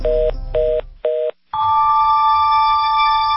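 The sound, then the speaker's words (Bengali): A telephone being hung up gives three short, loud, evenly spaced beeps, a brief silence, then a steady electronic tone that holds to the end. “কথা শেষ না করে phone রেখে দেয় প্রীতি”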